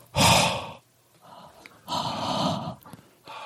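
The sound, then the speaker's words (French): Slow exhaled breaths blown onto the fingers or palm of a hand: a few soft, airy puffs of breath noise, the first loudest and a fainter one in the middle. “si on exhale lentement de l'air contre nos doigts, ou la paume de notre main, on aura une sensation de chaud. Donc je vais vous inviter à faire de même.”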